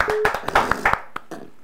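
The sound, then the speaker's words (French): Scattered hand claps from a church audience glorifying the name of the Lord during a prayer gathering: several sharp, uneven claps spread over under two seconds, sparse rather than a full ovation. “Que le nom du Seigneur soit glorifié. Acclamons pour le nom du Seigneur”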